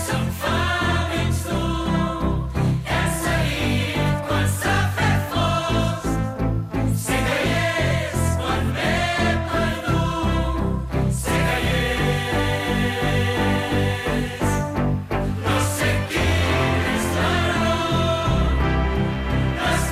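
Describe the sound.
A recorded pop song plays at a loud, steady level for the whole stretch, a dense full mix with a regular, strongly accented beat and shifting harmonic chords from start to end.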